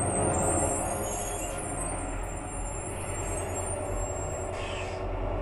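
A bus arriving with air brakes: a steady low engine rumble runs throughout, with a short high hiss near the end.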